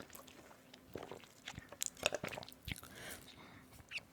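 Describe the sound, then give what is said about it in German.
Someone takes a sip of a drink. Quiet gulps, lip clicks and small wet swallowing noises come in a loose, irregular sequence, faint throughout. “Warte, ich trinke noch ein Stück vorher.”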